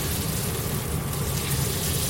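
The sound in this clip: An escalope sizzles loudly in clarified butter as it is turned over in the pan, a dense, continuous crackling hiss that stays steady throughout.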